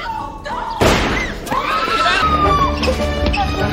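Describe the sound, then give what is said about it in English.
A single sharp gunshot in a sitcom scene rings out loudly, followed by raised voices and screaming. “Oh, she's been shot.”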